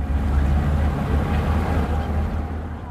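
A departing boat gives off a low, steady engine rumble: a continuous deep drone under a broad wash of noise, fairly loud and unbroken for the whole stretch.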